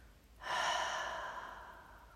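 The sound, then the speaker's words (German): One deliberate breath, drawn in through the nose and released through the mouth, comes as a soft, airy rush that starts suddenly and tapers off slowly over nearly two seconds, faint and alone. “Mach einen bewussten Atemzug durch die Nase und für die Ausatmung öffne sanft den Mund.”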